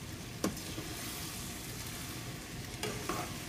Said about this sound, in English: All right, so now she on high. Let me just stir her.